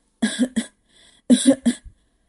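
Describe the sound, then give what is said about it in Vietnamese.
A dry cough comes in two harsh, voiced double bursts separated by a short pause, fairly loud and heard alone. “Mạc Thiên Thu ho khan một tiếng, bấy giờ mới hoàn hồn.”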